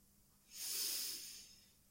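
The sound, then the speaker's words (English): One slow, deep breath during a guided breathing exercise swells in as a soft, airy rush, holds briefly, then fades away. It is fairly faint and stands alone with no talk. “Breathe out. One last time. In. And out.”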